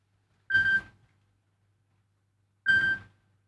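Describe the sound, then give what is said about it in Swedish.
Telephone ringing during a bingo number call: two short, high, buzzy ring bursts separated by about two seconds of silence. “Det ringar, det ringar.”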